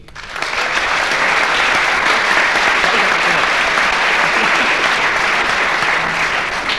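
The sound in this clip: Audience applause: dense, steady clapping that starts quickly after a short quiet moment and then stays loud and even for several seconds.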